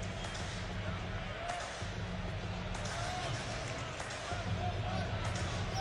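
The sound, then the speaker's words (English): A basketball is dribbled on the court during a professional game, a few dull bounces standing out over a steady crowd murmur, with talk running alongside. “Van Vleet on the dribble to Trent near side to Boucher.”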